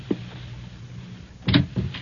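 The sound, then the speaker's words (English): A door being opened inside a house, heard as a short, solid clunk followed closely by a second softer thump over a low, steady hum. “Now, just be quiet a moment, baby. Wait till he opens the door.”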